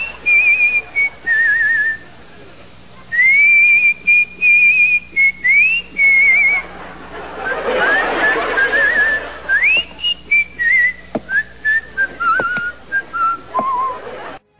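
A whistled tune, clear high notes in melodic phrases that rise and fall, separated by short pauses, with a soft burst of noise partway through.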